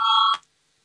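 Electronic bell in a parliament chamber calling members to a vote: a single bright, steady harmonic tone lasting about a third of a second, then silence.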